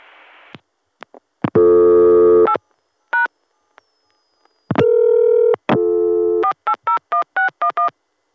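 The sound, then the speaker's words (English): Telephone line tones while redialing and dialing zero: a short tone and a few clicks, then two long buzzing multi-tone bursts separated by a brief double beep, ending in a rapid run of short touch-tone dialing beeps. “Gonna call back and dial 0.”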